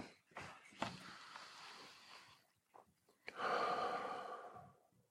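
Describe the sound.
A person taking a slow breath before prayer, soft and quiet, with a few short breathy puffs and then a longer airy rush of breath that gradually fades.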